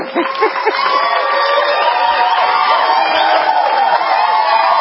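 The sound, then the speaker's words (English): An audience cheers and whoops in a sustained, loud crowd roar, with several raised shouts standing out near the start. “No, it was clapping.”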